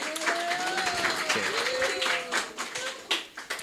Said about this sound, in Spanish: Muchas gracias. Un aplauso a la compa,